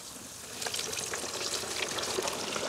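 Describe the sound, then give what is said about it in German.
A seasoned, breaded Franconian carp goes into hot oil for deep-frying, and a soft, dense sizzling hiss swells after about half a second, then holds steadily without voices. “Ich werde jetzt live für euch diesen leckeren fränkischen Eischgründer Karpfen frittieren. So, der muss gut paniert werden. Der wurde vorher schon gewürzt. Genau, jetzt kommt er hier rein.”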